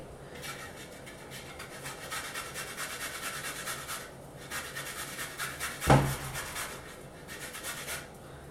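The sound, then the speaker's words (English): Fresh ginger and turmeric root are finely grated, giving quiet, repeated rasping scrapes in an even back-and-forth rhythm. A single sharper knock stands out partway through. “So I'm going to grind these up. I'm going to grate these up. I'm going to do a fine grate.”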